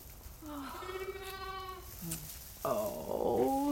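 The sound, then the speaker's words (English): Newborn twin lambs bleat on a farm: a few wavering, high-pitched calls, one long drawn-out bleat followed by a short one and then a louder, strained cry, with no talk over them. “Oh, our first lambs of the new year. Twins.”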